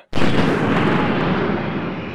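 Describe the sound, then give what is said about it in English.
A single sudden boom as the Army's largest howitzer fires a 103-pound high-explosive shell during artillery training, a sharp loud onset followed by a broad rumbling roar that slowly fades. “And that is the Army's largest howitzer. The 103-pound high explosive shell is the first in a barrage”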